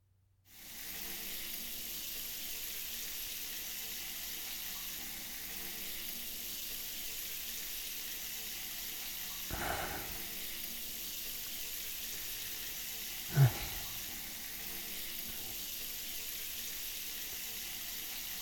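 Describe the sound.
Running water rinsing a person's back, a steady, even hiss of flowing water that lasts throughout, broken by a couple of brief soft knocks, with no talking.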